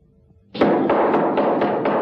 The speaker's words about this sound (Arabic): ودق على الباب، فخرجت واحدة وفتحت له الباب